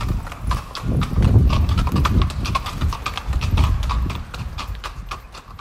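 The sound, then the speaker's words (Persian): Horse hooves clip-clop steadily as a horse-drawn carriage moves through the historic centre of Vienna beside St. Stephen's Cathedral. Many quick, even hoofbeats continue throughout over a low rumbling background. “کنار کلیسای اشتفان امکان اسب سواری وجود داره و یه کالسکه‌هایی هستن که شما میتونید سوار بشین و دوری بزنین در بافت تاریخی وین.”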